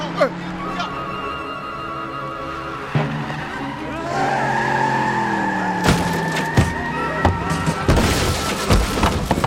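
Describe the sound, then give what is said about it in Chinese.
A car driven fast through city streets and swung hard into a turn: the engine revs loudly with rising pitch, tires squeal through the corner, and a few sharp knocks sound near the end, with voices shouting over it. “快，再快点！ 我脚都快踹到油箱里去了。 快，前面左转，往韩皇渡东路，走愚园路，向北江路方向，奔南江路。快，快转弯！ 你没看见我在转吗？”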